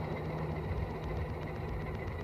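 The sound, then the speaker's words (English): Engine of a veteran car chugging along quietly in top gear of its two-speed gearbox, among slow cars on the 1981 London to Brighton run: a steady low rumbling drone with faint regular pulses, no voices. “up along Red Hills, chugging along quietly. We're still in top gear. I have a gear under this. I have only two gears.”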